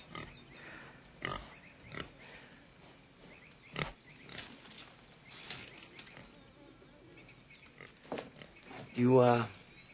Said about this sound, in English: That's your pig.